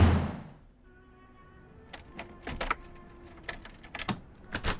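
Keys jangle while a door is locked: a low fading thud at the start, then a quiet pause, then irregular bursts of small metallic rattles and clicks.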